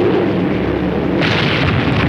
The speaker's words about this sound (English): As the bomb detonates, the explosion sends out fiery debris.